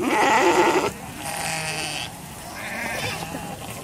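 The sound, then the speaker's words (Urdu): Sheep and goats bleating among livestock being moved through Somaliland toward the port for sale before the Hajj: a steady chorus of overlapping bleats that stays fairly loud throughout. “ساحل سے پرے دور افتادہ علاقے سے لے کر شمالی land کے دارالحکومت ہرگیسہ تک لاکھوں بھیڑیں اور بکریاں قرن افریقہ کی اس چھوٹی سی جمہوریہ میں سفر میں ہیں۔”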